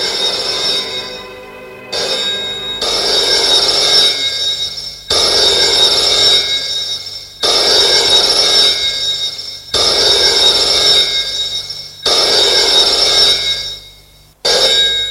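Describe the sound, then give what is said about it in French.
A telephone ringing with a bright, shrill bell tone, repeated in long rings separated by brief gaps, loud and with no voices. “Le lendemain matin, Charles reçoit un appel téléphonique.”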